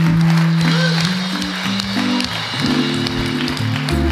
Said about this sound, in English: Church, can we give our visitors a very warm welcome?